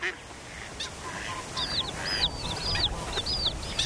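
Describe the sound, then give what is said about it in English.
A mother duck calls to her days-old ducklings from below their tree-hollow nest. A series of short, high chirping calls repeats steadily over faint, low background noise. “When the ducklings are just a few days old, their mother calls from below.”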